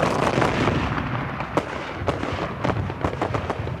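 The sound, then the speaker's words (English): A volley of musket fire bursts from defenders on a wall at troops marching toward it: many sharp, overlapping cracks in an irregular burst over a dense, crackling rumble, with no voices. “A volley of musket fire ripped out from the wall, and Despard's men started to fall.”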